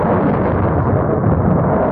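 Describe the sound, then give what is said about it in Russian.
A deafening thunderclap rolls out as a loud, continuous deep rumble that holds steady without a break. “Оглушительный раскат грома заставил всех вскочить на ноги”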